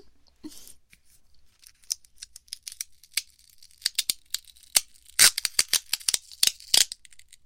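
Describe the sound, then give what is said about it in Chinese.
Adhesive tape pulled off its roll, giving many sharp crackling, tearing bursts in irregular spurts, sparse at first and then denser and louder toward the end. “这是胶带啊！这个胶带做什么用啊？”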